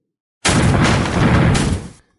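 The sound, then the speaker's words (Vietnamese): Booming blast of heavy punches raining on a wood-armored giant in a fantasy battle: one loud, sustained rumbling roar lasting about a second and a half, dipping briefly midway before swelling again and cutting off. “Thanh âm nổ đùng đùng vang lên liên tục, không ngừng truyền đến, toàn bộ linh vực màu xanh chấn động không thôi.”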